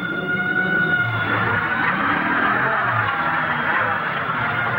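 A rented truck's engine drones as it drives through the night: a steady low hum mixed with road noise, unbroken and alone, with no voices.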